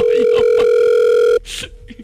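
Telephone dial tone while calling a friend: a loud, steady, continuous hum that cuts off abruptly after over a second, followed by faint scattered noises.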